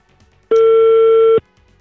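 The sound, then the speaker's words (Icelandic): A telephone call tone plays while phoning a man: a single loud, steady electronic tone lasting just under a second, with near silence before and after. “ég ætla að hringi þennan mann”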